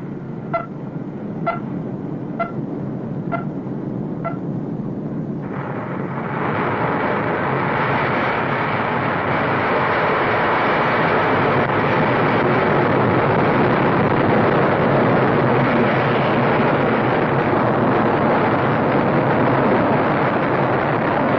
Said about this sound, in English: Vertical climb, controlled by her autopilot, then Blue Streak changes direction.